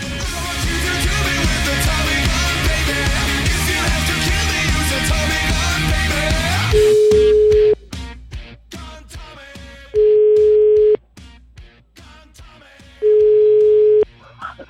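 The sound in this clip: Three ringback tones on an outgoing phone call, each a flat, steady buzz about a second long with pauses of a few seconds between them. The tones follow a loud, dense stretch of sound that cuts off abruptly.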